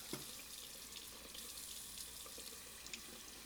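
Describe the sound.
Water runs from a tap into a sink as a quiet, steady rush that holds evenly throughout. No one speaks.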